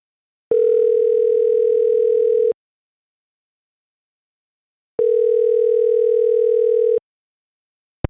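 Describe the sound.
Telephone line tones while a call is placed: two long, steady, buzzing tones of about two seconds each, separated by a pause of silence, followed by a brief click at the end.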